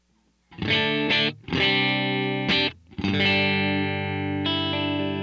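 A clean electric guitar plays through a profile of an AC15 amp mic'd with a Royer 101 and a 57. A few ringing, sustained chords are separated by short gaps, and the final chord is held longest.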